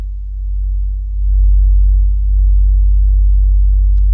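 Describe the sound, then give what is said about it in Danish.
A deep, steady humming drone made from the sun's surface vibrations turned into sound and slowed down. It is continuous and low, and swells slightly after the first second. “af solen, som NASA har lavet på baggrund af soloverfladens vibrationer, som ville kunne få den til at runge som en kirkeklokke. Nu hører vi lige den her solklang i en lidt langsommere gengivelse.”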